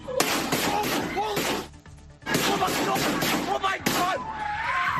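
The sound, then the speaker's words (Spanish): Gunshots at a high school, recorded on a student's phone video: many sharp, loud bangs fire in rapid bursts with a short lull partway through, and people's voices are heard amid the shots. “Este es el sonido de los disparos, grabado en un vídeo por uno de los alumnos de ese instituto”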